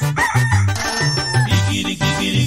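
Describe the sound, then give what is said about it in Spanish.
A rooster crows over a rhythmic musical accompaniment with a steady, pulsing low bass. The crow is loud and harmonic-rich, with tonal calls repeating against the beat. “El canto del gallito le recuerda a Pedro que traicionaba a Jesús. El canto del gallito nos recuerda a todos que Cristo murió y nos dio luz.”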